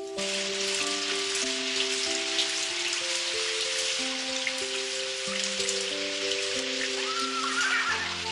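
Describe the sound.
Steady rain falls with a continuous even hiss of drops that never lets up. A soft, stepping melodic tone plays quietly underneath.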